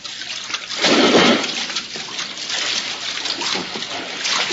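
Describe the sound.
Water splashing as someone swims on the surface toward the center of a lagoon, a continuous wash of churning water that swells into a heavier splash early on, then settles into steady lapping.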